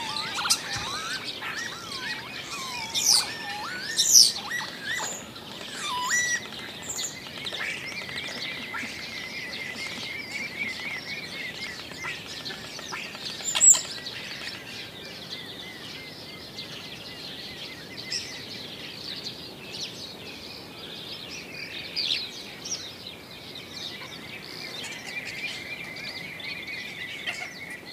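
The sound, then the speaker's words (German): Many bird species call together in a floodplain meadow in Polesia. Dense, overlapping chirps, trills and whistles run continuously, with a few louder notes standing out from the steady chorus. “auf dieser Tonaufnahme haben wir etliche Vogelarten gehört”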